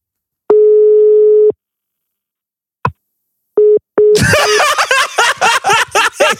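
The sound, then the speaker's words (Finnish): Telephone call tones from dialing an unknown number: a steady tone lasting about a second, a click, then two short beeps. Voices and laughter follow abruptly, loud and choppy. “Soita tuntemattomasta. Joo. Soita, auttaako tämä tuntematon?”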